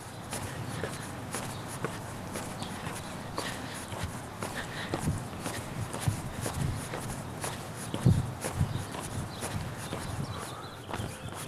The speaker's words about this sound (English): We'll call that a successful walk and a successful recording.